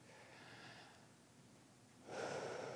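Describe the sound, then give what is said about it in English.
A deep breath drawn in during a guided gratitude and relaxation exercise: a soft, airy breathing rush that fades briefly, then swells into a louder, fuller intake of air at the end. “I'll just take a deep breath”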